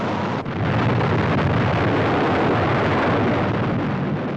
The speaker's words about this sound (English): Is that a fuel leak there in the first section of the three-stage rocket? Disaster follows, as this official film shows only too clearly.